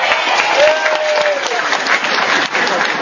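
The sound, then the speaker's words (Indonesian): Audience applause during a preacher's talk at a high school: dense, continuous clapping from a crowd, loud and steady for the whole clip without a break. “Tepuk tangan untuk Indonesia.”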